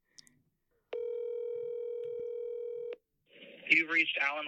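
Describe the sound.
A telephone tone sounds while a call is being placed: one steady, clear electronic tone holds for about two seconds, then a voice starts speaking.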